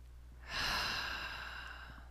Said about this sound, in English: Okay, deep breath, please.